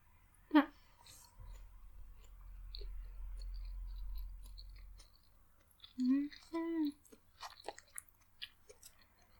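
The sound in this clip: Faint chewing of rice and a katsu cutlet with sweet sauce, soft wet clicks and small crunches spread over the stretch, with a few brief hummed vocal sounds standing out.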